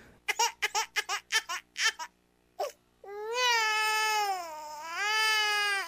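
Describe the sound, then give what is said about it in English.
Crybaby sound effect: a baby's quick string of short, choppy sobbing or babbling bursts, then a long, sustained wailing cry that dips and rises in pitch. “Start the crybaby sound effect.”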